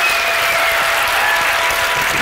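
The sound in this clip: Applause from the front rows of an audience: dense, continuous clapping that holds at an even, fairly loud level throughout, with no talk over it.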